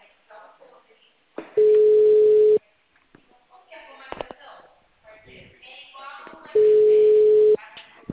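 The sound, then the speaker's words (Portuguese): A telephone line tone sounds while a call is being placed: two long, steady, mid-pitched beeps at an even level, separated by a stretch of voices and background noise. “Eu tô tentando ligar pro cara.”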